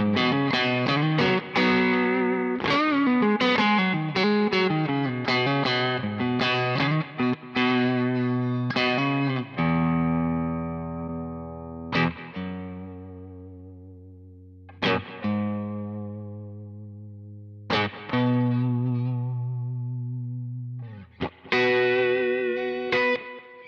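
A distorted electric guitar amp tone, recorded with Fathead and Gold microphones, plays quick chopped chords and riffs, then lets loud chords ring out and decay between fresh strums.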